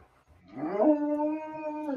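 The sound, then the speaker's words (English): A riled-up dog howls in a single drawn-out, tonal whine that climbs and then holds a steady pitch, fairly loud and alone, with no distinct barks. “My dogs got riled up.”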